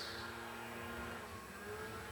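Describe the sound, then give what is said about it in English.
A John Deere backpack leaf blower runs with a steady, loud, unbroken roar that holds an even level for the whole stretch, with no voices over it. “That's the sound of a premium grade John Deere leaf blower. The kind that sits on your back like a backpack.”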